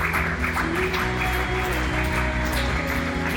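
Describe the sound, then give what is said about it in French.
A church audience applauds and acclaims the Lord. Steady clapping runs over sustained musical tones, holding at an even loudness throughout. “que quelqu'un dise Amen, Amen, Amen, et acclame le Seigneur.”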